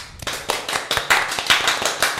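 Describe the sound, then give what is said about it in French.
An audience clapping for themselves at a small show: loud, rhythmic clapping in unison with sharp, evenly spaced beats at a brisk steady pulse throughout. “Vous pouvez vous applaudir.”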